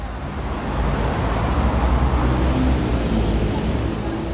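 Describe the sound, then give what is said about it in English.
Traffic at a busy street intersection in Buenos Aires on a hot summer day: a loud, steady roar of passing vehicles with a low engine rumble that swells slightly and stays constant. “Here I am, standing on the corner of a busy intersection on a hot summer day in February.”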